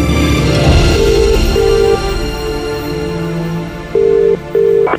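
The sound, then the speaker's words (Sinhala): Telephone ringback tone after a number is dialled: two double rings, each made of two short, steady mid-pitched beeps, separated by a long gap, over a soft background bed. “සමහර විහඟගේ number එක dial කළා.”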